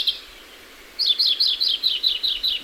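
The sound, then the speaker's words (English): Greenfinch calls in a churchyard: a rapid run of high, thin chirps repeated at an even pace after a brief quiet start, fairly faint and heard alone without voices. “And in any churchyard, the greenfinch has a nasal zwee that's very familiar to us all.”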